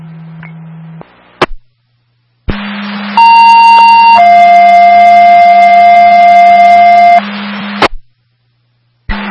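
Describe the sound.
Fire dispatch alert tones play during a test: a loud steady tone gives way to a second, slightly lower sustained tone over a low hum and static, with a few sharp clicks before and after.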